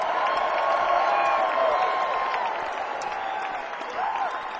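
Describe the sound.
A concert crowd cheering and applauding as a guitar and mandolin player is introduced on stage, a steady wash of clapping and cheers blended with sustained musical tones, easing off toward the end.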